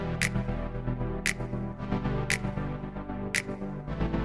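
Music intro of sustained layered chords punctuated by four crisp finger snaps at a steady, unhurried interval, with no voices over it.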